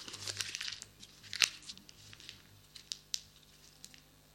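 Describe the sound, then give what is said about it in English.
A 10-euro paper banknote is crumpled by hand, a quick cluster of crinkles and crackles with one sharp louder snap, then sparser crinkling that fades. “how many of you would still raise your hands that you'd like to have this 10? Well, it's all crumpled up.”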